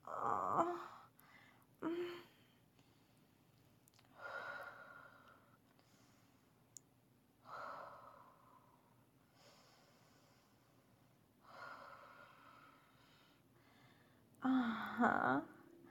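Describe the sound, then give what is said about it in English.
Slow, deep breathing from a person during an intimate moment. Faint, airy breaths come a couple of seconds apart, and the last one is louder and rougher. “take a few deep breaths with me”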